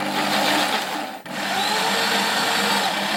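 A power drill whirs with its bit in the work, a loud, steady motor whine that briefly dips just past the first second and then settles back to an even drone.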